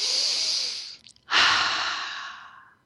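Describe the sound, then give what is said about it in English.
Deep breathing during a guided relaxation exercise: one long, airy breath, a brief pause, then a second long breath that slowly fades out, with no talking. “Let's take a couple of deep breaths first.”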